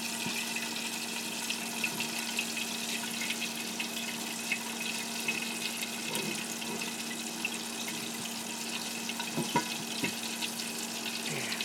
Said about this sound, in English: Yeah, you hear it coming up now. It's beginning to fry up now